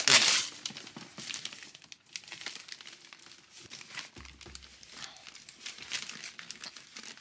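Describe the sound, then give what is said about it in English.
Wrapping paper crinkles and tears as a wrapped present is opened, with a sharp rip at the start and then steady rustling and crumpling. “Better be something good in here. They did. They did a good job of wrapping it.”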